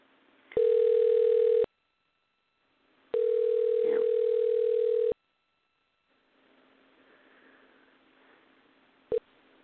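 Telephone line tones as a caller dials in: two steady, unbroken tones separated by a silent gap, the second lasting longer, then faint line hiss and a single sharp click.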